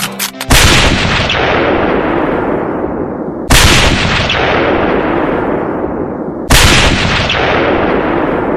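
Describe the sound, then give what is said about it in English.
Gunshots from a gun fired from the grassy knoll in a staged scene: three loud, sharp blasts about three seconds apart, each followed by a long, rumbling, echoing decay that fills the gap before the next shot. “Wait a minute. That guy on the grassy knoll's got a gun. He's gonna shoot the president.”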